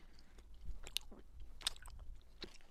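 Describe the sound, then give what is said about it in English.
Someone eats a large blue raspberry gummy candy for ASMR, a faint, soft, moist chewing with a few crisper clicks and smacks scattered through the bite. “I'm gonna eat the blue raspberry one. ASMR.”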